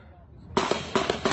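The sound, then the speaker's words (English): Rapid gunfire recorded on a cell phone during a shooting in Alexandria: after a quiet moment, a string of several loud, sharp bangs erupts in quick, uneven succession. “Captured on cell phone video, the chilling moment that rapid gunfire broke out in Alexandria this morning.”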